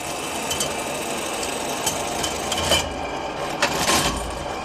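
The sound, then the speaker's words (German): A 125-year-old leather-area measuring machine runs in the Bally shoe archive in Schönenwerd, giving a steady mechanical whirr and clatter. A few louder knocks punctuate it, and no one speaks. “Diese Maschine misst die Fläche von Lederstücken, auch 125 Jahre später noch. Zwar nicht mehr für die Fabrikation, aber für die neugierige Museumsbesucherin.”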